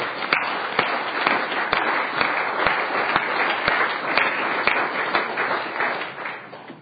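Steady audience applause welcoming the nurse of the day from Weston County Health Services at a session. Dense, even clapping holds at a fairly loud level for about seven seconds, with a few sharper claps standing out.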